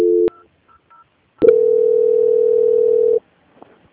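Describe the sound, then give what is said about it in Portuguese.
Telephone transfer tones play as a customer call is transferred to a quality-control department. A short tone and a couple of faint beeps come first, then a long, steady mid-pitched tone holds for nearly two seconds before cutting off. “que eu vou transferir o contato para o controle de qualidade que dará continuidade à sua contratação.”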